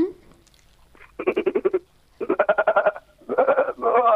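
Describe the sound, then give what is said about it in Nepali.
A human voice imitates a male goat with a few quavering, pulsed bleats of middle pitch separated by short pauses, loud and with no other sound. “अब बोका गरौँ हजुर।”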